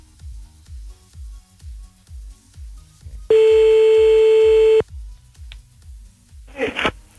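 A telephone ringback tone sounds as a call is placed back: one steady, bright, buzzy burst of about a second and a half, set between soft, regular low thumps before it and a short noisy rustle near the end.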